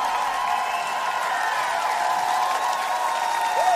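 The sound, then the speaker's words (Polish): Audience applause greeting a special guest: a steady, dense wash of clapping and crowd noise that holds at an even level throughout. “Wielkie brawa!”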